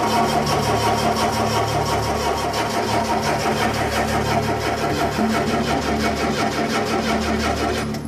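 Car engine cranking but failing to start, with no fuel reaching it: a loud, steady, rhythmic churning whir of the starter that runs unbroken for the whole span without the engine catching.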